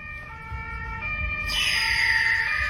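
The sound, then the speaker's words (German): An ambulance siren passing on a fully closed motorway, a steady, high wailing tone that grows louder as the vehicle approaches, over a low rumble of traffic. “Oh, da kommt schon der Krankenwagen. Ich habe keine Ahnung, was los ist.”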